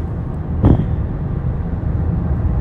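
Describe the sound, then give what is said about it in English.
A car being driven before dawn produces a steady low road and engine rumble, loud and unbroken, with a single brief knock near the start and no talking. “I am driving into my day job.”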